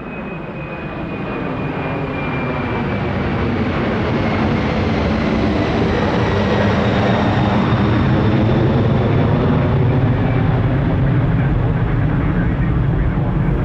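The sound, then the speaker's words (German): Ambience at an airport check-in area in Terminal 3, where passengers hand over their baggage. A loud, dense, continuous wash of noise swells over the first few seconds, then holds steady, with a faint high tone gliding across it. “Wir stehen hier am Check-in in Terminal 3. Hier checken Passagiere ein und checken auch ihr Gepäck ein, sprich, sie geben es hier ab.”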